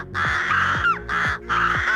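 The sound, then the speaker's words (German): Crows cawing on a football pitch in Lübeck: three long, harsh, loud caw calls, each separated by a short pause. “Krähen, die sammeln sich nämlich seit einiger Zeit auf einem Fußballplatz in Lübeck”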